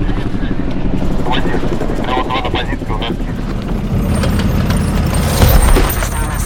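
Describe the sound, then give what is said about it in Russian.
Combat helicopters flying overhead: a loud, continuous rotor and engine roar with a dense, churning texture that holds steady throughout. “Наблюдение за объектом также ведут боевые вертолеты.”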